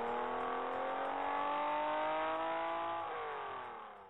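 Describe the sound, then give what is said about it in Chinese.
A car accelerates as it swerves and speeds ahead in traffic. The engine revs loudly and steadily, its pitch climbing gradually before dropping sharply near the end as the sound fades away. “他这么说着，一扭方向盘，车子“呲溜”一声，像泥鳅似的钻到前面去了。”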